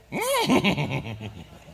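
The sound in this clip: A person's voice imitating a horse's whinny: one high squeal that rises and falls, then a fluttering, stuttering tail that fades within two seconds.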